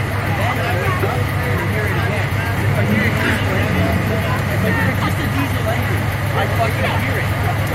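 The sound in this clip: A diesel engine runs with a steady, low rumble that never changes. A dense babble of background voices sits over it throughout.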